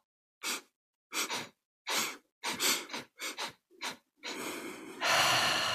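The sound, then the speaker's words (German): Interrupted, hiccup-like breathing from a breathing exercise: several short, choppy breath bursts separated by brief pauses, then one long continuous breath that ends the sequence. “Eine Schluckaufatmung, wie mache ich die? Das ist jetzt mein Begriff, ich weiß gar nicht, ob der offiziell ist. Aber dass ich zum Beispiel einatme mit Unterbrechungen.”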